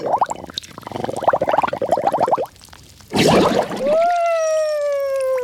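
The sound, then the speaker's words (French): Water splashes in a bathroom sink, a busy run of rapid sloshing and dribbling, then a brief rushing burst followed by a steady tonal gurgle as the water drains. “Mais qu'est-ce que tu fais à barboter dans le lavabo?”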